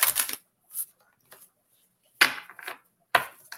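Playing cards being shuffled, heard as five short, crisp riffling bursts separated by silent pauses; quiet, with no talk.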